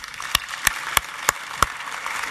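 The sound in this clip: Five slow, evenly spaced hand claps from an audience welcoming a speaker, each a sharp, distinct crack with quiet gaps between them.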